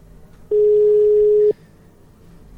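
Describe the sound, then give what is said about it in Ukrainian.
A telephone call's ringing tone: a single loud, steady, mid-pitched beep lasting about one second, set between quiet stretches of faint background noise. “Я думаю, що саме час зателефонувати Іванні.”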